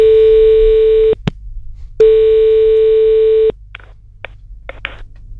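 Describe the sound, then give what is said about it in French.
A telephone rings on a call: two long, steady tones separated by a short pause, followed by a few faint clicks. “ça ressonne, on y retourne.”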